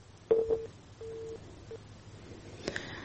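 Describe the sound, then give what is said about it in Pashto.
Faint telephone line tones as a call connection drops: a few short steady beeps and one longer tone over a low hum, then a brief crackling burst. “د تلیفون کرښې خرابې دي او زموږ د میلمنو اړیکې پرې کیږي.”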